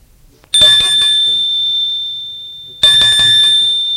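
Two bright metallic bell rings at the entrance of a school in a large 18th-century pinkish stone building on a small, tidy street. Each ring opens with a sharp strike, then a long, high, steady tone fades slowly.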